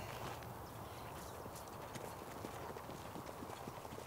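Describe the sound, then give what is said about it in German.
Hooves of a racehorse trotting on a hard track clip-clop in a steady run of many quick strikes, the horse favouring itself as if in pain, its trot shortening. “Viehgut läuft, als hätte er Schmerzen. Wie kommen Sie darauf? Er schont sich auf der harten Bahn. Der Kopf kommt höher. Der Trab wird kürzer.”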